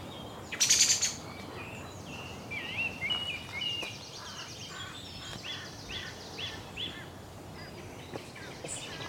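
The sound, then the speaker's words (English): Birds calling in oak woodland, song thrush and raven: scattered faint chirps and whistled notes over a steady hiss, with a louder, brief high burst near the start. “Now back into oak woodland, where there are song thrushes. And noisy ravens.”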